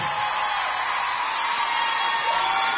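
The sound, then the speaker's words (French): A concert audience cheers, whoops and makes noise for a singer, forming a loud, unbroken wash of crowd sound throughout. “Du bruit pour Marguerite, s'il vous plaît. Du bruit pour Elena, du bruit,”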